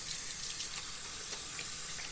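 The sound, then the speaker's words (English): Running tap water pours while hands are washed with soap, a faint, steady hiss and splash that holds evenly for about two seconds. “Come on, handsome dancers. Let's wash our hands and brush our teeth today. Good idea. Let's wash with soap.”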